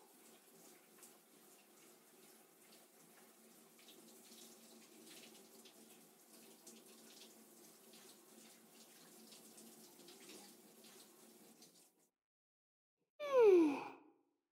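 Water pours steadily over someone in a bath for about twelve seconds, a continuous splashing rush that then stops, followed by a short, louder sigh-like sound with a falling pitch.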